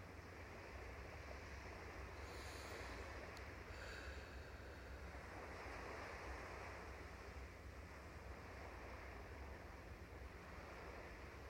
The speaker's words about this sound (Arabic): وعم نسمع صوت الموج خلينا نقعد على هيدا الشط